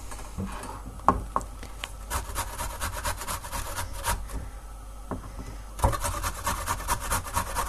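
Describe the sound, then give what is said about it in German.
Fresh coriander rubbed on a fine kitchen grater, giving many irregular dry rasping strokes with small scraping ticks, fairly soft and without talk. “der Koriander passt halt auch sehr gut. Ne? So. Wir reiben den jetzt. Ich tue den auch auf einer feinen Reibe.”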